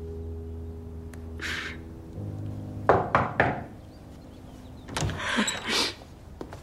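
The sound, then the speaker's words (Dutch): Knocking on a door: three quick, sharp raps in a close cluster, with other short scraping and rustling noises shortly before and after. “Plots klopt er iemand aan de deur.”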